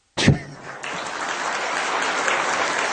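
Applause from an audience breaks out abruptly with a sharp burst of claps, then settles into dense, even clapping that holds steady for nearly three seconds.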